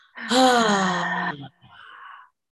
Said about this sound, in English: Big inhale, calling in clarity and peace, and exhale.